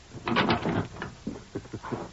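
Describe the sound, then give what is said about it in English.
Knuckles rapping on the front door of a house, at the top of the porch steps: a few sharp, hollow knocks with short gaps between them. No voices are heard. “Dismounted, walked up the steps to the porch, and rapped on the front door.”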